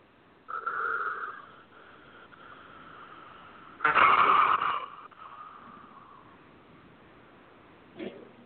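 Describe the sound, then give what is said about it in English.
A deep breath taken during a guided letting-go exercise: two soft, breathy rushes of air, the second louder and fuller than the first, then a brief faint puff near the end, with no talking. “a nice deep breath”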